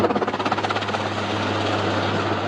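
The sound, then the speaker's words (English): Military firefighting helicopters flying high over a days-long wildfire on a mountain, their rotors thumping rhythmically at first before blending into a loud, steady engine roar. “helicopters are high above trying to fight wildfires that have been ongoing for days”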